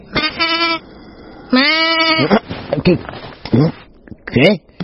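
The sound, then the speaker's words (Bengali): A plump young black goat with floppy ears and small horns bleats, two drawn-out, wavering cries in a thin voice, followed by rougher broken sounds. “ফিরে দেখলেন একটি বেশ হৃষ্টপুষ্ট ছাগল, কুচকুচে কালো দেহ, বড় বড় লটপটে কানের ওপর কচি পটলের মতো দুটি শিং বেরিয়েছে।”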